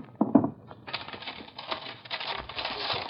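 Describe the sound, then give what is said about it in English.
The back is ripped off a framed picture: a few sharp cracks, then a long, sustained crackling tear with a thin, band-limited tone. “Then I'll have to do it for you. I'll get that Lady Jane picture down. Rip off the back.”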